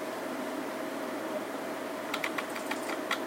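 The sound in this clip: Typing on a computer keyboard: a few faint, quick keystroke clicks in the last second, over a steady hum.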